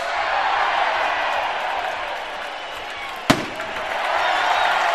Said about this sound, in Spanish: Acaba de sonar la bomba que anuncia las ferias y fiestas de San Pedro y San Pablo 2024.